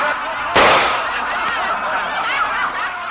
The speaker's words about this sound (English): In the laughter that followed that burlesque line, the sound of a shot could barely be heard. But Mrs. Lincoln heard it.